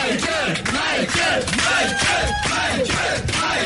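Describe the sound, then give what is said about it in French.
Fans cheer and yell in an ovation for a performer, a loud, dense crowd roar full of shouts and whoops that holds steady throughout. “il y a toujours l'ovation, bien sûr, de ses fans qui sont venus nombreux de la France entière, de l'Europe entière.”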